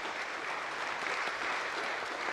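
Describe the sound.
A church audience applauds, a thick, even stream of hand claps that keeps a constant level for a couple of seconds without pauses or voices standing out.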